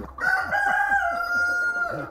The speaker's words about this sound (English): So there's a vast difference between the breeds of chickens. This would be a black Wyandotte. See, they're quite docile.